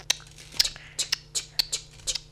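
Scissors make a series of quiet, crisp snipping cuts in an uneven rhythm, with short gaps between the snips.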